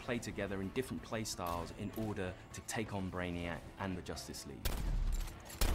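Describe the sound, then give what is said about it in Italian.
Gunfire from a shooter video game bursts in sharp, noisy cracks near the end, while people talk over most of the stretch. “Ma ha sparato in testa? Non ha sparato in testa, gli ha fatto headshot?”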